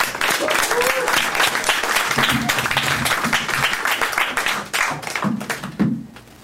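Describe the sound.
Audience applause at a poetry reading, dense and steady clapping from many hands that thins out near the end and fades away.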